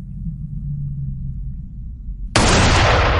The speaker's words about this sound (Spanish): El tiro da en la espalda del padre.